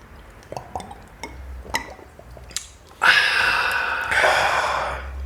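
Beer bottles and glasses for a toast: a few light clicks and glassy clinks, then a loud, sustained fizzing hiss that runs on to the end.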